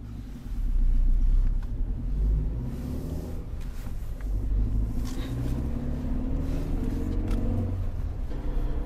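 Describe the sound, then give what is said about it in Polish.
Steady low engine and road rumble from a car driving toward a forestry district. The drone stays loud and continuous throughout, with no talk. “Jedziemy teraz do leśnictwa Przylep w okolicy hotelu Grape Town”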